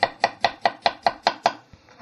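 A knife cutting food: eight quick, evenly spaced chops in a steady rhythm, each a crisp knock, followed by a couple of fainter, looser taps.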